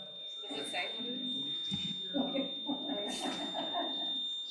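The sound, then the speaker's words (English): A fire alarm sounds as one steady, unbroken high-pitched tone, continuing beneath people talking. “we should take a pause because I think that might be a fire alarm. Hold on. Is it the fire alarm?”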